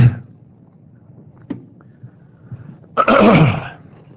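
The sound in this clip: Throat clearing from a tickle in the throat: one harsh, rasping burst near the end, after a quiet stretch with a few faint clicks.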